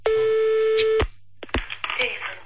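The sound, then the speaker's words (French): A telephone line tone sounds before a call to a TV station: a steady, even electronic tone holds for about a second, then gives way to a few sharp clicks and brief voices. “Téléphone”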